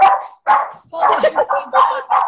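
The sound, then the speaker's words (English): A small dog barks in a rapid string of sharp, high-pitched yappy barks and yips, loud and close together with brief gaps between bursts. “That's my dog. Sorry, come here. Sorry. The dog is fine. Let's have a look at the dog. Come here. My little barky dog.”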